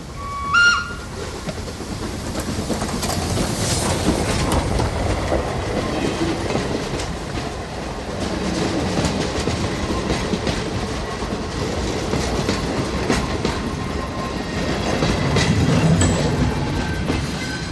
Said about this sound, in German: Das war eine Vierzylinder-Lokomotive von Dubusque. 1887 konstruiert. Sie fährt nur hier,